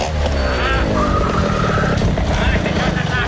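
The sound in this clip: A car drives up with a loud, steady engine and road noise that fill the whole stretch, continuous and dense from start to finish.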